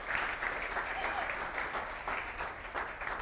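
Audience applause greeting two guests invited onto a stage: a dense, steady wash of clapping from a crowd that holds at an even level throughout.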